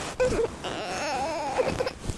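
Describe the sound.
A baby fusses and cries in short, whimpering bursts with a wavering pitch for about two seconds, fairly quiet.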